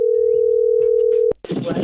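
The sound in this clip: A telephone ring tone sounds during a prank phone call: one steady, unbroken tone that cuts off with a click, after which a voice begins speaking.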